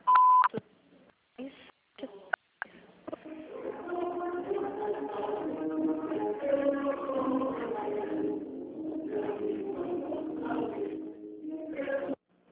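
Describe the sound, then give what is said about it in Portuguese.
An automated phone system sounds a short, steady mid-pitched beep tone, followed by a few clicks. A long, narrow-band recorded voice then speaks over the phone line. “Após o sinal, digite o ramal ou aguarde.”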